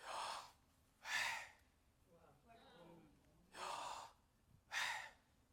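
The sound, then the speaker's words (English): The name Yahweh breathed by a human voice without moving the tongue: four strong, airy exhalations with a fainter, softer breathy sound between the second and third. “when we say Yahweh, the name Yahweh, I'm going to try it today, you should say it without tongue. Your tongue mustn't move. So Yahweh sounds something like this.”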